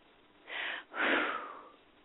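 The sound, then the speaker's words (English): A deep breath taken during a guided meditation: a soft, airy inhale followed after a brief pause by a longer, fuller exhale, breathy and fairly faint, with no talk over it. “Nice deep breath.”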